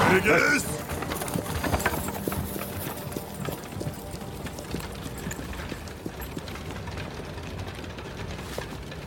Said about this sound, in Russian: Повозка сгоняет чиновника с дороги.